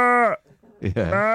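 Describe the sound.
A person's voice mimics a sheep bleating, two wavering bleats, each nasal and sustained, separated by a short quiet pause.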